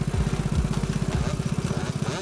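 A motorcycle with a sidecar starting off, its engine putting loudly in a fast, steady, throbbing rhythm that stays even throughout.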